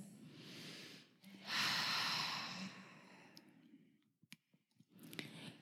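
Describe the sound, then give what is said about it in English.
Deep breaths during a guided meditation: a soft inhale, then a longer, louder airy exhale, followed by a few faint clicks and another quieter breath, all fairly low in level with no talking. “So take a couple of deep breaths.”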